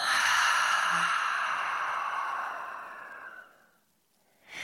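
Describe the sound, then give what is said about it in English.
A deep, airy breath out through the mouth during a guided breathing exercise in a class, one long loud exhale that holds steady for about three seconds and then fades away. “So let's all of us take a really deep breath in. And through the mouth, let it out.”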